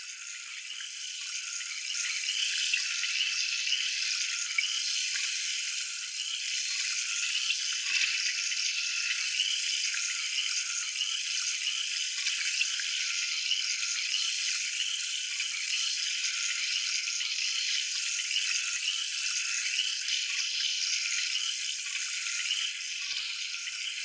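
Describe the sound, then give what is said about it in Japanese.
Running water rinses a hair treatment out of hair during a hair wash, a steady, bright hiss that continues evenly without break, with no voices. “それでは最後にトリートメントを流していきますね。”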